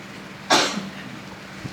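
A single sharp sneeze bursts out once, brief and fairly loud, then dies away into a faint steady hum with no talk around it.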